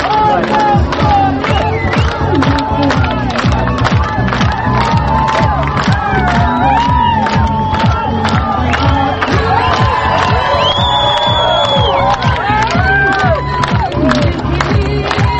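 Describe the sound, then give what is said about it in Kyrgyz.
A crowd at a political rally in Bishkek greets an opposition candidate with loud, sustained cheering, shouting and whoops, and dense clapping runs steadily throughout. “Бириккен элдик кыймылын бирдиктүү талапкер менен жолугушууга келген эл талапкерди кол чабуулар менен тосуп алышты.”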